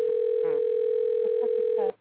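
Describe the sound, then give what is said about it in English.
A telephone ringing tone: one steady, unbroken electronic tone that holds for almost two seconds and then cuts off, with faint voices underneath. “is somebody ringing? Somebody trying to call?”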